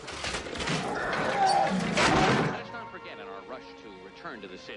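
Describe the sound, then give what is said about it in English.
Doors burst open as a lizard crashes through them at the bottom of a staircase: a loud, broad, sustained crash lasting about two and a half seconds, then quieter tonal sounds. “At the bottom of a staircase, a lizard bursts through a set of doors.”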